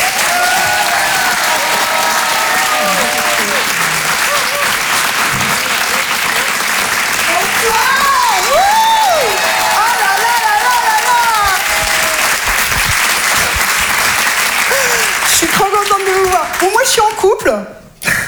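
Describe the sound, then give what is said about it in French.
Sustained audience applause and cheering at a comedy and song show, dense continuous clapping with shouts rising over it for many seconds before it cuts off at the end. “Je vous demande de faire du bruit, s'il vous plaît, pour Judith Delair.”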